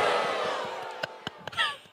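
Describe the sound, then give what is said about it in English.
A fake audience crowd sound effect gives a burst of crowd noise that fades steadily, then a few sharp clicks and a short voice near the end. “Wes actually getting mad at a fake audience.”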